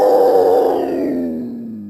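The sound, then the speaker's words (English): Cougar (Puma concolor, mountain lion) call: one loud, drawn-out, groaning cry that slides down in pitch and fades over about two seconds. “The mystery sound is the cougar, Puma concolor, also known as the mountain lion. This is beauty in the animal world, a cougar.”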